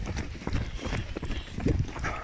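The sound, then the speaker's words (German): Footsteps of people walking along a path, a steady stream of many crunching footfalls with an even, continuous rhythm. “Achtung, nicht erschrecken, wir laufen hier rechts. Ich kenne die Wege hier.”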